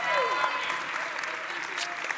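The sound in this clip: Applause from an audience welcoming a first-year Old Testament class, a dense, steady clatter of clapping that runs through the whole moment with a voice speaking over it.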